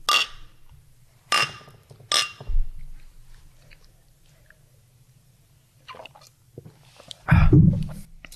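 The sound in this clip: People tasting St. Hell, a new pale beer, from glasses: a few sharp glass clinks and sipping and swallowing noises between quiet stretches, with a louder burst near the end.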